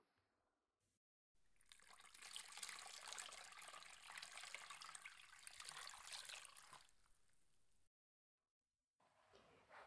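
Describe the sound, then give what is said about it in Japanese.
Warm water being poured over hair to wet it: a soft, steady rushing and splashing wash that runs for several seconds and then stops, quiet overall. “じゃあ、温かいお湯で髪を濡らしていくね。お湯かけますよ。”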